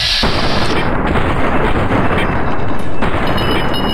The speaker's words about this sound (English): So, now we're gonna go with the gun. Okay. I'm just gonna shoot you in the head until you die.